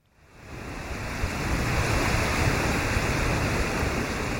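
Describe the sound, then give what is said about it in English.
Strong wind blowing off the Indian Ocean onto Mozambique's coast, a dense rushing roar that swells up over the first second and a half, then holds loud and even. “This is the sound of strong winds blowing from the Indian Ocean onto Mozambique's coast.”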